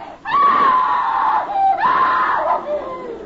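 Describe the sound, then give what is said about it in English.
A woman screams at night, giving a long, high, piercing cry that drops off briefly and then rises again into a second wavering scream that trails away. “I knew it was my sister who had screamed.”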